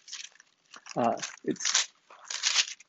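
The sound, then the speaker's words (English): Paper rustling at the back of a church audience during a sermon: several bursts of crisp, crinkling noise separated by short pauses, with brief voiced sounds between them. “hear the paper rustling in the back”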